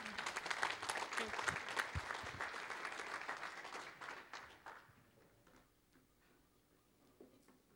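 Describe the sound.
A church audience applauds in welcome, dense clapping that holds for several seconds and then fades away to near quiet, faint overall.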